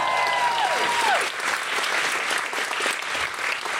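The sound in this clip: Audience applause welcoming a guest to the microphone at a live comedy talk show, a loud, dense wash of clapping throughout, opened by a brief falling whistle-like tone.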